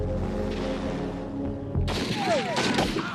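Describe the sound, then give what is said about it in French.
Gunfire from a low-flying aircraft shooting at a dog. A steady humming engine tone with droning harmonics cuts off suddenly into a loud burst of shots and crashing noise with sharp, whistling streaks. “Qui leur a pris de voler si bas et de tirer sur un chien et sur nous?”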